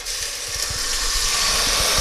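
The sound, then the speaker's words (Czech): Game broth poured into a hot pan and left to boil gives a steady, fairly loud sizzling hiss that holds unbroken from start to finish, with no talk. “A teď tady mám zvěřinový vývar.”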